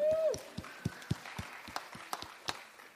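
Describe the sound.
A handful of scattered, quiet claps from a small audience applauding a shy young girl, uneven and sparse rather than a full ovation.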